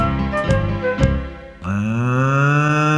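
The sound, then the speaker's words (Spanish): A cow moos in a stable: a long, low, steady moo with rich overtones follows a couple of short thumping sounds. “Escuchemos la vaca de Don Pedro Pablo, que está mugiendo en el establo.”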